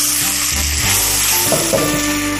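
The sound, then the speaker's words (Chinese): Shrimp sizzles as it pan-fries with oyster sauce, salt and paprika, giving a steady, dense crackle of hot oil without pause. “我们煎完一面再煎另一面，加入一小勺蚝油，可以让它这个香味更提升一些，加入少许的盐”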